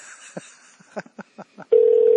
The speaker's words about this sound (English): I'm calling his house.